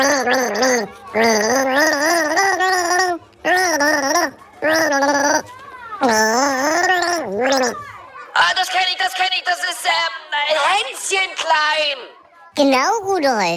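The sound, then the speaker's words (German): A voice gargles water while trying to carry a well-known children's tune, producing warbling, bubbly sung tones in several phrases with short pauses between them. “legst den Kopf in den Nacken und versuchst, ein bekanntes Lied zu gurgeln. Au, Backe, hoffentlich verschlucke ich mich nicht.”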